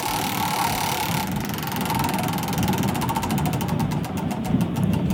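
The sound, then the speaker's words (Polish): A game show prize wheel spinning in a studio: a rapid stream of clicks gradually slows and spaces out as it winds down, over a steady noisy background. “proszę wpuścić koło w ruch.”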